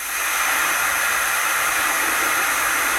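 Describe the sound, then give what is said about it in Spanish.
A pressure cooker lets off steam in a loud, steady, unbroken hiss that stays even from start to finish. “Muy bien, bueno, pues dejamos el sonido de la olla express”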